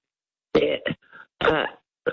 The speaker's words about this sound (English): Excuse me because I've got a very bad throat and I'm probably coughed.